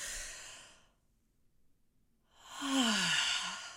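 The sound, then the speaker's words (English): Two breaths, separated by a quiet pause, during a guided exercise of breathing in through the nose and out through the mouth. The first is a soft, airy breath, and the second is a louder, longer sighing breath. “So we're going to breathe in through our nose,”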